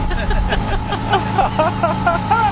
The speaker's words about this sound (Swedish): Nu öppnar bensinkranen först, ja. Och sen vevar vi igången. Ja, men då åker vi. Då kör vi.